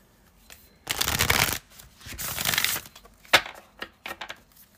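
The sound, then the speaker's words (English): A Moon oracle card deck being shuffled: two long riffling bursts, then a few short, crisp snaps of the cards. “I'm going to pull 5 moon oracles and see what's going on with this.”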